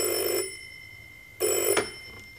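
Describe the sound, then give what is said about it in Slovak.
Telephone ringing in two short bursts of about half a second each, separated by a gap of roughly a second, with no voices. “Telefón neprestajne zvoní.”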